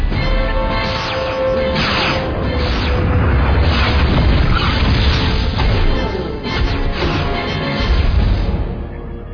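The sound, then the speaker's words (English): Starship ventral phasers fire amid explosions in a space battle: a loud, dense barrage of booms, crashes and whooshing bursts that runs without pause. “Fire all ventral phasers!”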